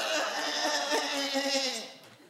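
A goat gives a single drawn-out, wavering bleat that holds steady for about two seconds before trailing off, fairly faint.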